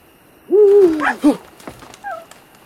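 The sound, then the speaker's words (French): Owl hooting at night in the woods: one loud, wavering, pitched call that falls gradually, then a short clipped second note and a faint brief call near the end. “Une chouette. Mon Dieu, ce qu'elle m'a effrayé.”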